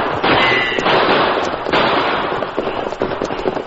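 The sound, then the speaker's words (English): Staged gunshots ring out in a Western shootout between riders and outlaws during a stagecoach holdup. A rapid series of loud, sharp cracks and bursts crowds together over a continuous rough, noisy din. “Use your guns, Tonto.”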